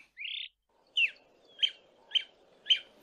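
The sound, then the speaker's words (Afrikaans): A honeyguide bird calling: a longer buzzy note followed by four short, sharp chirps at a fairly even pace, high-pitched and clear against near silence. “Hy weet dadelik dis Saartjie, die heuningwyser, wat hom roep om vir hom te wys waar daar 'n bijenes vol heerlike soet heuning is.”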